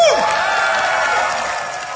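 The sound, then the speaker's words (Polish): A young crowd in a tent applauds loudly, a dense roar of clapping and cheering with whoops, opening with a quick falling shout and staying loud before easing slightly at the end. “Pozdrówmy wszystkich młodych na całym świecie gromkimi oklaskami.”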